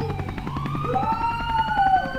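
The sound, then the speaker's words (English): Sirens wail loudly and continuously, one tone sweeping steadily upward in pitch over a low, constant rumble. No voices are present. “And then Moose, official guard dog of the Take No Shit Dojo, he responds to those sirens, which I guess he and most canines mistake for the call of the wild.”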